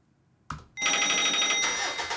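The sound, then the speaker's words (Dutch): Telephone ringing as a call is placed: a brief click, then a bright, steady ring with strong upper overtones that holds until the end. No talk. “volgens mij is het tijd om te gaan bellen met Henk.”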